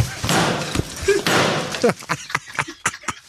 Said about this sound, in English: I'm going to make you my sweet and sour pork to help tenderise the meat. Yeah. Just simply give it a good bash.